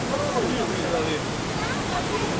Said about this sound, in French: Là, l'eau va sortir de ce côté. Elle sort là-bas, l'eau. Donc la chaussée détourne l'eau, ici, du côté droit du Dourdou.